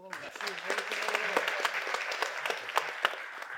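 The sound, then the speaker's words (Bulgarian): Audience applause at a comedy roast: steady, dense clapping with a few sharper, louder claps standing out, holding at a moderate level throughout. “Аплодисменти за Остата.”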